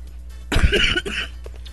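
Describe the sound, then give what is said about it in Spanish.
A short coughing fit from one person: a dense burst of harsh coughs, then a weaker cough and a faint trailing one, all moderately loud against quiet surroundings. “Perdón, un pequeño ataque de tos.”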